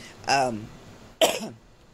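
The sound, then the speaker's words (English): Coughing after choking on soda: two harsh, rasping bursts with a throat-clearing edge, the second starting sharply and trailing off. “I'm just going to choke to death on my soda”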